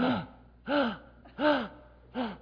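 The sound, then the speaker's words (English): A voice imitates sharp, awed inhaling gasps. Four short, breathy voiced cries are evenly spaced, each rising and then falling in pitch, with quiet gaps between them. “All you're going to be doing is inhaling.”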